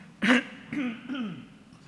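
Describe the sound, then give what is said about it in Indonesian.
A church audience coughing and clearing their throats together at the start of a service: a sharp cough followed by a few rougher, voiced throat-clearing sounds of moderate loudness. “Kita batuk sama-sama dulu ya.”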